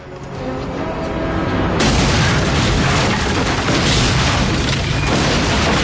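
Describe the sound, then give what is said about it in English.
A wall blown up with dynamite fuses erupts in a loud, sudden boom, then a sustained roaring rush of blast noise and debris continues until the end. “the wall blows up”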